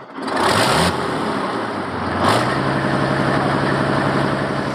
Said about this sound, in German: Mit 300 PS geht es jetzt durch schweres Gelände. 13 Tonnen ist der Schützenpanzer schwer.